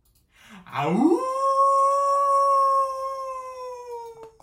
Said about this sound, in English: Did you hear that? It sounded like a werewolf.